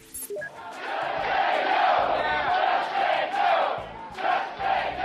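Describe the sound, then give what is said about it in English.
Healthcare protesters chant outside a town hall in Tampa, Florida. Many voices shout together in a loud, pulsing rhythm that rises and dips in steady waves. “Now, that's the sound of a healthcare protester chanting outside a town hall in Tampa, Florida on August 6th of this year.”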